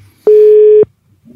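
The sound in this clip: A single steady telephone tone sounds as a call is placed. It is a clean, loud, even beep lasting about half a second, with no voices over it.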